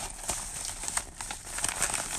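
A wrapped package containing a cartridge is ripped open, giving a busy stream of crinkling, crackling and tearing noises in uneven bursts, moderately loud and without talk.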